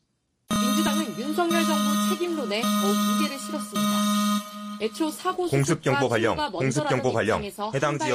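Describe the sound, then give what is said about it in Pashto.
Air raid warning alarm broadcast on South Korean television, a steady, droning electronic tone that holds for several seconds, then gives way to a voice talking over busy background sound. “د جنوبی کوریا پر تلویزیون د خطر دا زنګ خلکو ته خبرداری ورکوي چې خوندي ځایونو ته پناه یوسي.”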